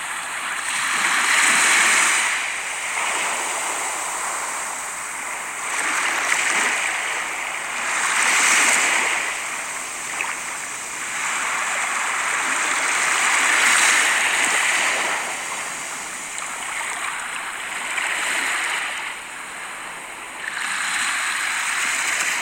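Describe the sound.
Sea waves wash in as slow, repeated surges, each swell rising into a broad rushing hiss and then easing back. The surges continue throughout in an unhurried rhythm.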